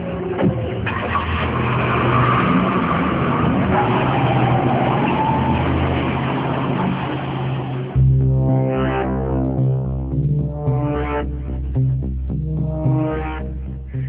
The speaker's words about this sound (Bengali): driver, গাড়ি বের কর, কুইক, বড্ড দেরি হয়ে গেছে, আমাদের এক্ষুনি বেরোতে হবে